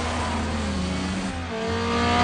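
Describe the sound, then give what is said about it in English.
A car races up in a film car chase, its engine giving a steady, loud roar that swells toward the end. “Shoots at Dom's car. Letty races up to join them.”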